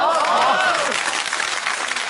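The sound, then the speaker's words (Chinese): Audience applause at a stage show set around a drinking table: a dense, steady wash of clapping fills the whole clip, with a brief voice rising over it at the start. “待会儿呢该鼓掌该鼓掌咱们就鼓掌”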